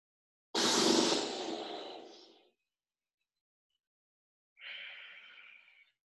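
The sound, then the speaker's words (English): Breath pushed out through fluttering lips during a guided yoga session: a long, loud, breathy exhalation that gradually fades, then after a pause a second, shorter and fainter one. “In, flutter your lips, breathe out.”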